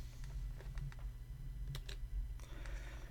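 Typing on a computer keyboard to launch DOSBox: sparse, faint key clicks and taps come in small irregular bursts over a low steady hum.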